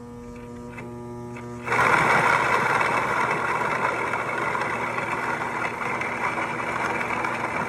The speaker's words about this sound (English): This is my serial killer grain mill. It used to be a hand crank that my dad rigged up a little DC motor to.